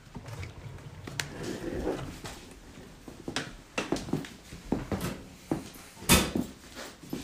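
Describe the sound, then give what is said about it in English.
Clunks and clicks from a watch safe being opened, a few sharp metallic knocks and thuds scattered over soft handling noise, with no talking. “We can open the safe and see like the nice ones.”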